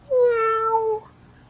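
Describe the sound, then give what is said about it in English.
A cat meows once, a single drawn-out, clear, harmonically rich call of just under a second, alone with no other sound. “I see a purple cat looking at me.”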